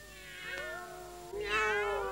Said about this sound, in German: Wenn nun alle Katzen in unsere Laube kommen.